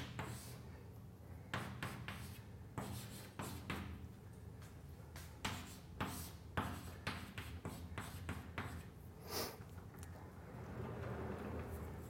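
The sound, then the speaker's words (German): A pen scratches on paper while someone writes out a handwritten math expression: many quick, irregular strokes and taps, with a steady low background hum and no talking. “und na gut, schreiben wir es mal hin.”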